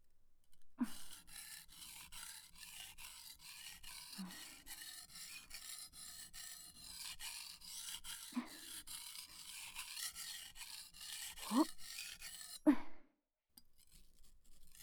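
Rhythmic rasping strokes of a knife blade being sharpened, many steady back-and-forth scrapes running for about twelve seconds before stopping abruptly, with no talk.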